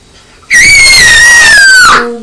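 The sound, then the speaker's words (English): A child screams loudly in one sustained, piercing, high-pitched shriek that holds for about a second and a half, its pitch drifting slightly lower before it cuts off abruptly. “you'll be giving them a headache scream like that”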